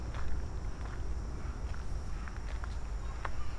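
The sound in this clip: Footsteps of someone walking deeper into a forest, a series of soft, faint, irregular crunches over a low background hush, with no clear voices.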